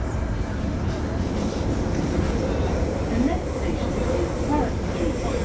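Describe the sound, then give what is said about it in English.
Carriage ride on a London Underground Northern Line train, a loud, steady roar and rumble of wheels and motors that continues without a break. “I've just got on the Northern Line at Euston and I'm heading to Leicester Square.”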